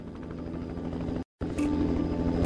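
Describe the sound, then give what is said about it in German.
Helicopter carrying an Austrian recovery team coming in to land: a steady, dense rotor and engine drone with a low throbbing pulse, broken by a short gap of silence midway before resuming at full strength. “Ein österreichischer Bergungstrupp landet im Hubschrauber.”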